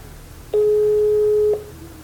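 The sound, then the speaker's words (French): A telephone ringback tone while a call is placed: one steady, mid-pitched beep lasting about a second, heard alone over a low background hum. “On va l'appeler.”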